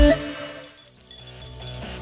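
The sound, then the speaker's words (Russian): Keys jangling, the keys to a new apartment, give a brief bright metallic jingle with light clinks lasting about two seconds. “Это звук ключей от вашей новенькой квартиры в Минске, которую разыгрывает Евроопт.”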